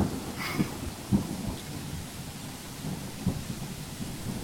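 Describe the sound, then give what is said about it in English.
Steady rain falls as a dense, even hiss, broken by a few low, dull thuds like distant thunder. “I see nothing. It's raining. It is raining.”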